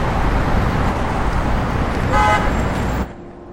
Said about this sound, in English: Traffic flows along a street in daylight.